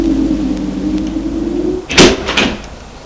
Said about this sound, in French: Moment, la serrure a cédé. Ils entrent.